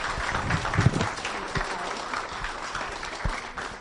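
A church audience applauds to welcome a guest pastor for a Sunday service, giving sustained, fairly loud clapping that continues steadily throughout.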